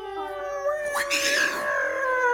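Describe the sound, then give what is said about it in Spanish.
A single cat meow rises sharply in pitch and blends into a tango-style music track, sounding over sustained musical tones. “Los gatos maullan.”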